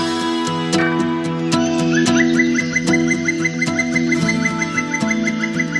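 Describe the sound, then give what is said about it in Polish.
Crested lark song, fairly faint, made of a long run of rapid, repeated whistled notes and chirps over a steady tonal background. “ptak herbowy miejscowości Rzeszczynka, ale tak naprawdę nazywany śmieciuszką albo pośmieciuszką”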